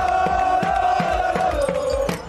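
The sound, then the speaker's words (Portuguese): Crowd in uproar, celebrating in Rossio square, Lisbon, after a football match. The roar is dense and continuous, with repeated surges and a steady, sustained tone running through it. “No meio da multidão, em alvoroço, aqui no Rossio, registamos as reações e as emoções.”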